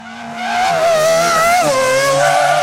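A high tire-squeal-like skid of new sneakers being raced like racing cars, heard as a sustained, loud squeal whose pitch wavers and dips, alone without voices.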